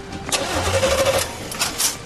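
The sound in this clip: Engine being cranked without igniting: a short, loud whirring burst from the starter that never catches, followed by a fainter rattle and shuffling.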